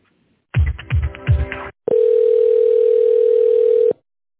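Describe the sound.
A telephone tone sounds while a call is put through: a few short electronic chirps, then one long, steady, mid-pitched tone held for about two seconds before cutting off cleanly.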